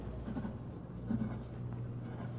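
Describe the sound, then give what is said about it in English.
A suspect writes out the lowercase alphabet by hand for a police handwriting exemplar, the pen scratching softly and continuously over paper against a steady low hum. “Handwriting analysis. All right, now write the alphabet in lowercase, please.”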